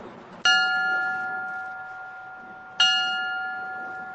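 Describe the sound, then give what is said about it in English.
A bell tolls twice at a remembrance in Moore, Oklahoma, for 24 people killed a year earlier by an EF5 tornado; each clear strike rings out and then decays slowly into a sustained hum. “a bell, a prayer, a remembrance of 24 people killed by a tornado 1 year ago.”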